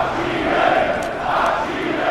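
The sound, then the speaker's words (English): An angry crowd shouts at an anti-immigration rally in Germany, a dense, sustained roar of many voices with mild swells in loudness throughout. “"Send them home," howled this angry crowd at one of many anti-immigration rallies.”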